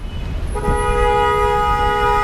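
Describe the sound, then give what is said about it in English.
Gridlocked street traffic in Lebanon, where a single car horn sounds a long, sustained, steady blast over a low, continuous rumble of idling vehicles. “The traffic is gridlocked here a lot of the day. When it moves, though, it's worse.”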